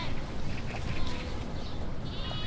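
Sheep bleating in a grazing flock tended by a lone herder, a dense, continuous wash of overlapping calls and bleats with steady rustling noise throughout, no talk.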